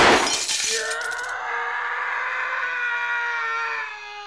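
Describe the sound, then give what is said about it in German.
Glass shattering as a gunshot goes through a window: a sharp, loud crash of breaking glass at the start, then a long sustained ringing tone that holds steady and fades slightly near the end. “Sie verdammter Idiot haben durchs Fenster geschossen und auf der Straße jemand getroffen.”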